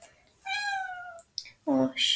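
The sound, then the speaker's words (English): A pet cat gives a clear, drawn-out meow in a bedroom, followed by shorter vocal sounds after a brief pause, fairly quiet overall. “Sorry, I'm not sure if you guys heard that. It's okay, baby. No. You might have heard that. So, my cat is in my room with me”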